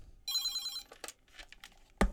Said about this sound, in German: Boah, Telefon. Ich muss mal kurz rangehen.